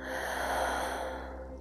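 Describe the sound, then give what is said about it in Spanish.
A deep exhale through the mouth, a steady, even rush of breath that holds at a constant level throughout, with no voice. “Inhala profundo. Exhalas y sueltas todo, todo el aire por tu boca.”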